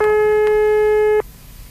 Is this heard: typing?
no